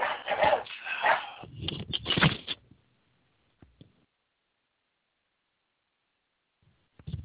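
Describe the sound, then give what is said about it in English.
Dog barking in a loud burst of several rapid barks and yips over the first few seconds, then near silence broken by two brief, fainter sounds. “I guess my dog wanted to say hi too. Sorry about that.”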